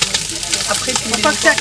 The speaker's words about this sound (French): Voilà, là, on fait juste brunir un tout petit peu, une minute. Parce qu'après, ça passe en basse température, directement au four.